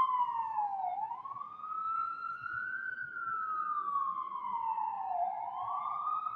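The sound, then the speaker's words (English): The siren of a fire department ladder truck, Ladder 14, in New York City wails steadily at moderate volume, its pitch falling, rising slowly, then dipping and climbing again in long sweeping cycles. “Is the fire department ladder 14? That's ladder 14.”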